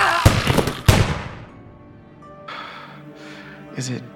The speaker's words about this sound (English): I put my finger on the trigger and started to fire.